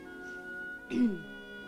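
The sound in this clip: A single polite cough from a woman, a short breathy burst that turns into a brief voiced tone falling in pitch, heard alone over a steady faint hum.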